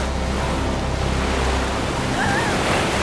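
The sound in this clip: Waves roar on a raging stormy sea in the rain, in a dense, continuous wash of noise that stays steady, with no distinct breaks, throughout.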